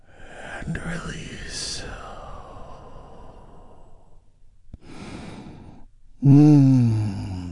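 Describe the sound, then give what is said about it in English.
A deep, slow breath taken together in a calm relaxation exercise: a long airy inhale and exhale, a short pause, a second breathy sound, then a voice begins at the end. “Let's take a big, deep, healing breath together right now.”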